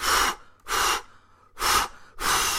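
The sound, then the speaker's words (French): A voice imitates a wolf taking a deep breath and blowing hard, with four loud, breathy, rushing bursts separated by short pauses. “Il prit alors sa plus profonde respiration et souffla comme un fou.”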